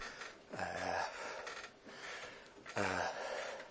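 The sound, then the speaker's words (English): Heavy breathing from a person, a few drawn-out, rasping inhales and exhales with voiced, gasping edges, fairly loud and heard alone without talk. “So I'm just breathing heavily here.”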